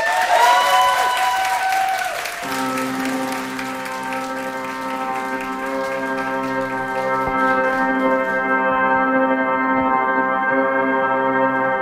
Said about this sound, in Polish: To oddajemy głos zespołowi MOP. Gromkie brawa.